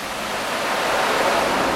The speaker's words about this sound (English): When the red telephone rings and the call comes from ISO New England, energy in the form of the water battery flows into the turbines at 27,000 gallons a second.